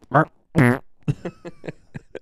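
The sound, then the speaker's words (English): A voice imitates a fart with a few buzzy, sputtering bursts: a short one, then a louder, longer raspberry, followed by several quicker, weaker sputters. “I don't think I've ever heard you fart like that. It's usually like,”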